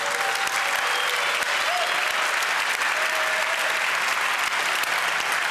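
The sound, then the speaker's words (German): A round of audience applause welcoming a show's on-board operator. Loud, dense clapping holds evenly for more than five seconds without a break, with a few faint voices in the crowd. “Bitte einen runden Applaus.”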